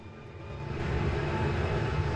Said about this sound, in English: In a simulation, a pilot pushes forward on the throttle and takes off from a runway.